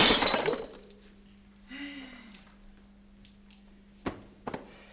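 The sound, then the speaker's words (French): A glass bottle shatters with a loud, bright crash at the start. After a quiet stretch, a few sharp clinks of glass follow. “Voilà, vous arrivez et une bouteille se casse.”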